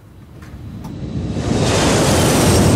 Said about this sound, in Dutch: Ja, dat is het geluid van overvliegende vliegtuigen in de noordrand van Brussel en in Brussel zelf.